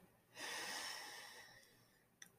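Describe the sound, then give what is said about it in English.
A deep breath drawn in through the nose makes a faint, airy hiss. It swells quickly, holds steady for over a second, then slowly tapers off, and a brief soft click follows at the end. “Inhale.”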